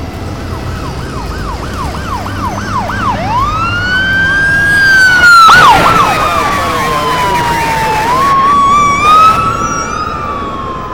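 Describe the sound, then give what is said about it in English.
A police car siren comes up from behind a moving car, opening with a rapid warbling yelp and then sweeping into long rising and falling wails. The siren stays loud over steady road rumble. “Wait, what? Is it the police behind us? Ah, oh, shoot. They'll drive faster.”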